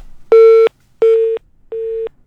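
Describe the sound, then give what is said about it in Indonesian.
Telephone busy tone after a live call-in line drops: three short, evenly spaced mid-pitched beeps with gaps between them, the last one slightly fainter, and no talking. “Terputus kembali.”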